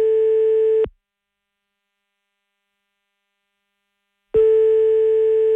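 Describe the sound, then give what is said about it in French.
A telephone line tone sounds while a call is being placed: two long, steady buzzing tones separated by a few seconds of silence, loud and alone, with no voices. “c'est parti, on appelle Eric, son papa.”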